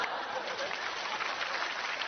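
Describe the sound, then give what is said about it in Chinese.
Applause of many hands clapping in a dense, steady patter, held at an even, fairly quiet level for the whole stretch without a clear break or swell. “爸爸，这可好喝了，快鼓掌，可好喝了。”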